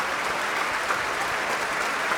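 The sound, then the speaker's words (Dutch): Thunderous applause fills the great hall of the Concertgebouw at a performance of Tchaikovsky's Violin Concerto in D major, an even, dense wash of clapping from a large audience, steady for about two seconds with no voices. “Een daverend applaus hier. In de grote zaal van het concertgebouw.”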